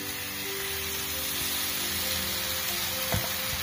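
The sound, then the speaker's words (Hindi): Frying sizzles as banana paste is added to flour that has been roasted brown in a pan over medium heat for a banana sweet. The hiss is steady and dense with a faint hum, and a short knock or stir sounds near the end. “अब हमें इसमें डाल देना होगा ये जो हमने केला का इस तरह से पेस्ट बनाया था इसे डाल देना है”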